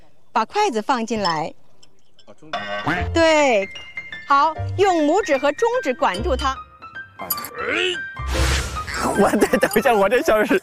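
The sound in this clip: Ordinary dishes tapped with ordinary chopsticks and played as a musical instrument give faint, ringing clinks beneath people talking for most of the stretch.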